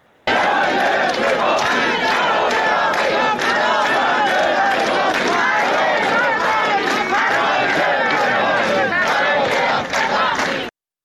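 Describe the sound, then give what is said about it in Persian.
Hundreds of protesting teachers chant slogans against discrimination, a loud, continuous massed roar of voices with a rhythmic pulse that cuts off abruptly at the end. “ویدیوهایی که منتشر شده نشون میده که صدها نفر در این شهر جمع شدن، دارن شعارهایی میدن، از جمله این که معلم به پاخی برای رفع تبعیض. صداشون رو داریم بشنویم با هم”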